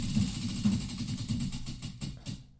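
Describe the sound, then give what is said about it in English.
Prize wheel spinning, its rapid clicking ticks thinning out and slowing toward the end as the wheel comes to rest, over a low murmur. “Spin the wheel and see what we talk about. I'm reaching for it.”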